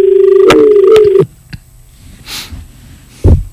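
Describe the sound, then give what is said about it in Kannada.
Telephone keypad tones as a caller's line connects on a live farming call-in show: two short beeps, then a soft click, a brief hiss and a low thump. “ಮುಂದಿನ ಕರೆಯನ್ನು ನೋಡೋಣ.”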